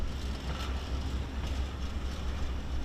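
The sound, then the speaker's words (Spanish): Steady low rumble of a train moving slowly, at about 30 km/h, past destroyed residential areas on the route toward Aleppo, an even continuous drone with no pauses. “El tren avanza junto a zonas residenciales destruidas. Corre solo a unos 30 kilómetros por hora, pero no se detiene.”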